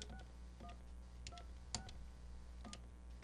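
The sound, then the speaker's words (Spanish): Telephone number dialed on a keypad, sounding as a few short, faint dual-tone DTMF beeps spaced unevenly over a steady low hum. “a ver, vuelvo a marcar. Aguánteme tantito, por favor. Vamos a marcar una vez más.”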